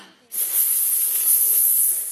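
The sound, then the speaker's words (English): A sharp hiss starts abruptly and holds steady for nearly two seconds, bright and airy with no voice over it. “Hissed Cleo supportively, out of sight.”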